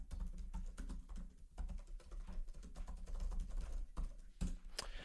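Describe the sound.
Rapid typing on a computer keyboard while a note is entered, many irregular clicks of keys running almost without a break over a steady low hum, with no voices.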